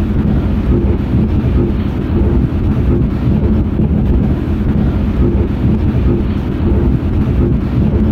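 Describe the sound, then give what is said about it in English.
A million recorded human heartbeats played at once merge into a dense, continuous low rumble. It stays loud and steady throughout with no distinct individual beats. “And if we record a million people's heartbeat and then play at once, it would be sound like this.”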